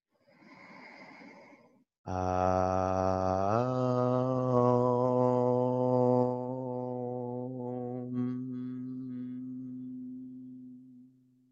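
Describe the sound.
A chanted "om" closes a yoga pose, palms pressed together at the heart. After a short breathy sound, one voice holds a low, steady, resonant drone for many seconds, fading slightly toward the end.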